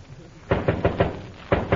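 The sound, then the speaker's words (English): Knocking on a door comes in two quick series of sharp raps, a run of about four followed by a short pause and then a couple more. “who's that knocking?”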